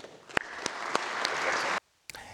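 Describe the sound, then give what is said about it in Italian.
Applause fills the Italian Senate chamber at Palazzo Madama after a moment of silence in mourning, swelling gradually to a steady wash of clapping, then breaking off abruptly into silence, followed by a single brief knock. “Il cordoglio, il silenzio e poi l'applauso dell'aula di Palazzo Madama su invito del presidente La Russa.”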